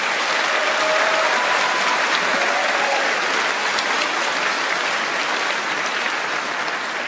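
Steady, dense applause from an audience at an evening event. Many hands clap in a continuous wash at even loudness for the whole stretch, with no voices over it.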